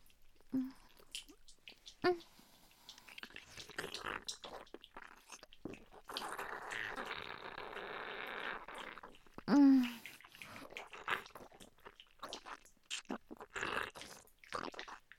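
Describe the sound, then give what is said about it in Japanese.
Wet, deep kissing with saliva: many soft smacking, slurping and squishing mouth sounds, quiet overall, with a stretch of steadier wet sloshing in the middle and one louder smack later on. “思いっきり弟くんにベロチューして唾液を送り込んであげるから、たくさん飲んでね。”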